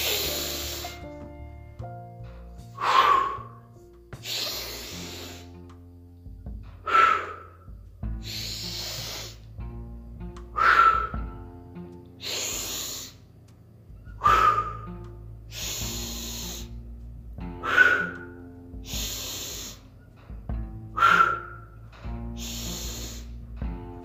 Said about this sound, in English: And breathe out. Let's go again. last round.